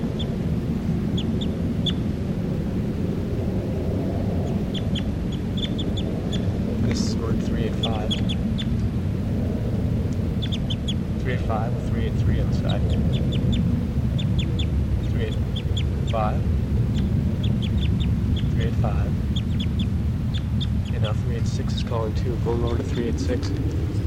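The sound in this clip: Loud bird calls played from a recording: many harsh, quacking calls repeat irregularly over a constant, noisy background hum.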